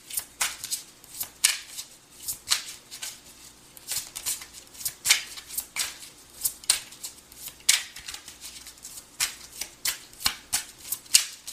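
Playing cards are shuffled and drawn in a run of many crisp riffling snaps and flicks, faint and irregular in rhythm, with no talking.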